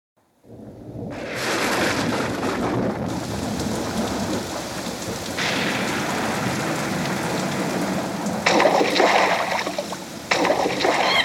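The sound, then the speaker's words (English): Steady rain pours down in a dense, continuous hiss that stays loud throughout, with a couple of brief surges in intensity toward the end. “It's raining!”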